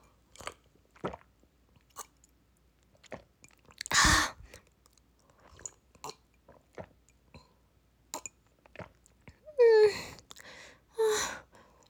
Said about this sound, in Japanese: ちょっと水分取る。さっきのお茶飲むね。